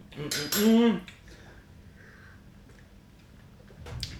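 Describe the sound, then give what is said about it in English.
A spoon stirs espresso in a cup, opening with a short cluster of bright, ringing clinks of metal against ceramic, then near silence, and a fainter clink of cutlery near the end. “I'm going to dive straight into the espresso, give it a bit of a stir.”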